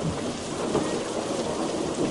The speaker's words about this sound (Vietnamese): Một luồng sáng cực lớn bùng lên, sóng to mưa lớn, gió quận mây vần sầm sập tuôn trào. Bao tiếng nổ lớn vang lên liên tiếp.